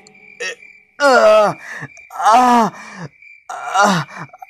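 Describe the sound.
A wounded man with blood running into his eyes pants and gasps for breath: three long, strained, voiced gasps that sound like groans, with softer breathing in between, loud and without words.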